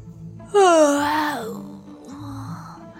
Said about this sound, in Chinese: 小四子盯着公孙看了好久，突然打了个哈欠